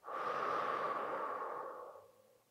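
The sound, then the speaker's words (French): A long, breathy exhale from a sophrology relaxation exercise, loud and airy at first and then tapering off over about two seconds. No other sounds are heard. “On rassemble ce négatif au moment de l'inspiration et on s'en débarrasse à l'expire. On y va. Inspirez et soufflez.”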